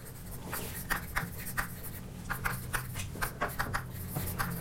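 Chalk or marker strokes on a board as a diagram is drawn during a lecture on combinational logic: many quick scraping taps in an uneven rhythm, moderately loud over a low hum, with no talk.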